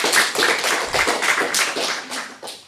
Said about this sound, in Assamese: বাৰু সকলোৱে হাত চাপৰি বজাই দিয়া।